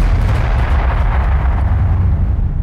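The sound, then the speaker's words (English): Bomb explosion sound effect: a loud, sustained low rumbling roar that carries steadily through the whole stretch with no voices. “One more bomb for that, man.”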